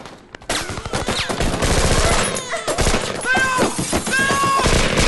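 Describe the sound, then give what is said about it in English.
Gunfire erupts in a tense film chase, with rapid bursts of shots and loud crashes over a dense roar, while voices shout and cry out between the volleys. “They run for it. Luke shoots at Theo.”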